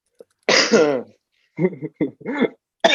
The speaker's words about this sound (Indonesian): Batuk, maaf.